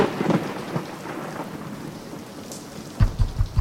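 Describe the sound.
Heavy rain hisses steadily through a thunderstorm, with low thunder rumbling early on and then a burst of deep, punchy rumbles near the end.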